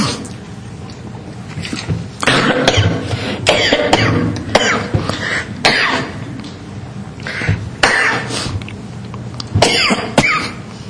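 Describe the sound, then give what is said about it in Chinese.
A person coughs harshly and repeatedly after choking on a drink swallowed too fast. Many sharp, irregular bursts come in uneven clusters across about eleven seconds. “抱歉，喝太快呛到。”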